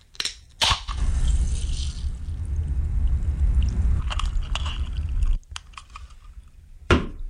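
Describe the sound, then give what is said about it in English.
Opening a can of pop: a sharp crack, then a loud, broad fizzing hiss that runs steadily for several seconds before cutting off abruptly, followed by a few brief clicks. “It's the sound of opening up a can of pop.”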